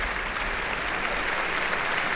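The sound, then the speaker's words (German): Audience applause fills an opera house at the end of a performance, a steady, dense wash of clapping that holds an even level throughout with no voices rising above it. “Und hier gibt es jetzt zunächst Applaus für”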